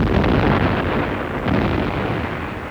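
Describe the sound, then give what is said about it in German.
Cannon fire from military manoeuvres on the Bosna outside Sarajevo makes a dense, continuous, heavy roar that swells loudly at the start and again midway, with no clear separate blasts. “3 Tage Kanonendonner. Mir dröhnen schon die Ohren. Gott sei Dank sind die Manöver ja bald zu Ende.”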